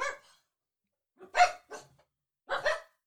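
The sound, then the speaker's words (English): Angry dogs bark in several sharp, loud barks, some in quick pairs, separated by silent pauses. “they're very angry. The dogs are also angry.”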